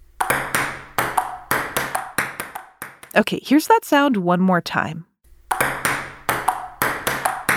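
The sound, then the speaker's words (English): A ping pong ball bounces on a table in a quick rally, a string of sharp, bright clicks at an uneven pace. A spoken line breaks in midway, then the clicks resume. “That sound is... Ping pong!”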